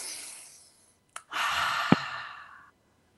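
Deep breathing during a group guided relaxation exercise: a soft inhale, a brief pause, then a long, audible sighing exhale that fades out.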